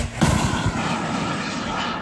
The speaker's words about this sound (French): Ça, c'est le tir d'un missile solaire LMM.